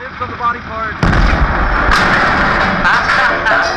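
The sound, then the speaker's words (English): A very big gun firing: a sudden, heavy booming blast that keeps rumbling and crackling loudly after a brief voice at the start. “Goodness gracious, I reckon I ain't ever seen a gun that big.”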